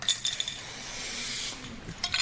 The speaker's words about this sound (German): Stop ECOP, sprüht ein ugandischer Klimaaktivist hastig mit schwarzer Graffiti-Farbe auf den Linoleumfußboden.